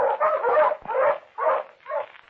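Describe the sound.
Pointer hunting dogs barking in a quick run of several mid-pitched barks and yelps, steady and fairly loud, with brief gaps between bursts and no talk.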